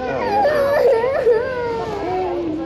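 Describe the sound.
A child cries in a leaked recording of children separated from their parents, a wavering, high-pitched wail that rises and falls in pitch and is joined by voices.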